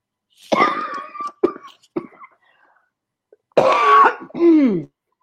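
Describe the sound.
A woman clears her throat to ease a tickle, giving a few rough, voiced rasps close together, then a pause before two longer, strained, throaty bursts.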